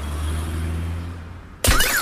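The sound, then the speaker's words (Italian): A falling iPhone 14 Pro Max smashes a parked car's glass: a steady low hum gives way to a sudden loud crash, followed by a rising and falling wail. “Vediamo se l'iPhone 14 Pro Max cade dalla finestra veloce come il Dodge. Vai.”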